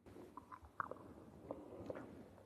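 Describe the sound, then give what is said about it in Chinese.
Crisp cracks of teeth biting down on a copper coin while chewing, a few sharp crunches standing out over soft, steady mastication noise. “咀嚼不到1分钟，就听见了几声脆响。”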